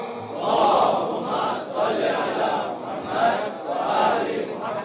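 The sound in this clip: An audience chants salawat, blessings on the Prophet, together in unison, the massed voices rising and falling in several loud rhythmic swells.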